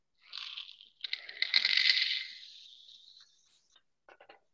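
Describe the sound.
Fertiliser granules poured into a graduated cylinder cut off at the litre mark, a hissing, rattling pour that builds and then tapers away, followed by a few faint clicks of settling grains.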